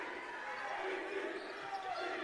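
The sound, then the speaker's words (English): Faint dribbling of a basketball on the court during a girls' high school game, buried under a steady wash of crowd noise with no clearly separate bounces. “Just still dribbling.”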